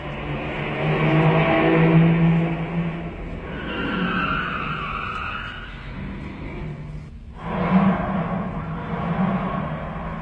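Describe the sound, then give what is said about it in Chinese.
A car driving away: a steady engine and road rumble with a low droning tone runs throughout, dips briefly near the end, then picks up again. “汽车又开走了，大家松了一口气。”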